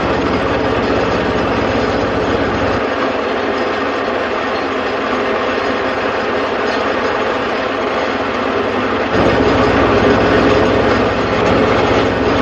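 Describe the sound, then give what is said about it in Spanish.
A tractor works a farm field, its engine giving a steady, loud low drone that holds throughout and swells slightly near the end. “Mientras Ismael hará la tierra con el tractor”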